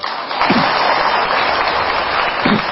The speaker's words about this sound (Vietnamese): Vỗ tay.